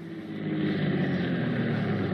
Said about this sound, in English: Oh, here comes the car.